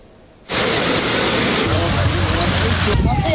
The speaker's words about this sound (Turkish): Göle dönen yollarda araçlar ilerlemekte güçlük çekti,